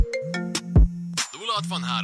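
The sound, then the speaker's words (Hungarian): A phone rings with a melodic electronic ringtone: bright tonal notes repeat in a bouncy pattern at moderate loudness. “Esküszöm, ilyenkor azt hiszem, hogy téged keresnek. Mi, amikor így csörög a telefon?”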